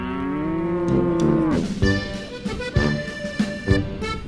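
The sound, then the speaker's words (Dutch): A Montbéliarde cow, a cattle breed from the Montbéliard region, gives a long, low moo. Shorter lowing calls and some uneven, rough vocal sounds follow. “In deze contreien bijvoorbeeld werd aan het einde van de 19e eeuw een runderras gefokt, de Montbéliarde.”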